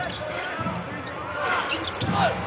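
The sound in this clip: A basketball is dribbled during a game: quick bounces thump on the court floor beneath continuous commentators' talk and crowd noise.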